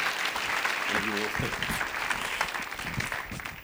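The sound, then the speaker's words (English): An audience gives loud, steady applause to welcome a speaker to the stage at a church gathering. A brief voice cheers over the clapping, which fades slightly toward the end. “So please put your hands together and welcome Michael Escamilla to the stage.”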